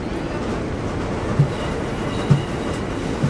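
A train runs on rails with a steady low rumble. Three evenly spaced wheel clacks punctuate it, and no voices are heard.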